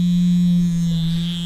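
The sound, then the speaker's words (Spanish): An electric shaver buzzes steadily during shaving, a constant low drone with a thin high whine above it. The tone stays level and unbroken throughout, with no voices. “Me estaba afeitando.”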